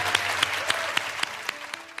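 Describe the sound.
A church audience applauding in celebration of new believers, with steady, dense clapping and a few sharper claps standing out.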